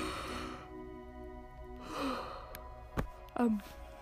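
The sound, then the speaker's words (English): A person yawns early in the morning: a soft, breathy voiced stretch comes first, then a brief click, then a louder voiced exhale that slides down in pitch near the end, with no other talk. “I'm yawning, but I won't actually be able to go back to sleep.”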